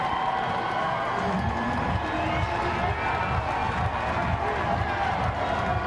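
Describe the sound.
A crowd roars at an Arizona State softball game, a loud, continuous wash of cheering that holds steady throughout, with voices mixed into the din.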